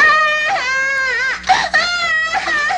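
An infant who had lain stiff and silent for twenty days suddenly cries loudly. The sustained, tonal wails run almost without pause, broken by a few sharp catches of breath.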